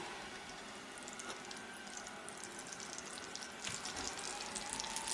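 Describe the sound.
A little butter sizzles in a frying pan while a cream gravy is being made, giving a soft, steady frying hiss with faint crackles that stays low and even throughout.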